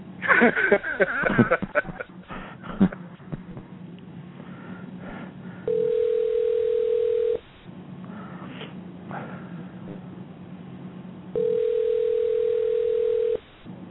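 Telephone ringback tone while placing a call: two long, steady buzzing tones of about two seconds each, separated by a quiet gap, with breathy rustling and sniffing noises at the start.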